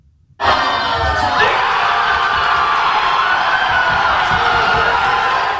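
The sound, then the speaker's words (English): Fans in Madison Square Garden erupt in loud cheering after a Knicks win over the San Antonio Spurs, following a comeback from a 29-point deficit. Brief near-silence breaks into a sudden, sustained roar of shouts and whoops that holds steady throughout. “This tip-in by OG Anunoby sealed the win after the Knicks eliminated a 29-point deficit against the San Antonio Spurs. That set off an eruption among fans inside Madison Square Garden and beyond.”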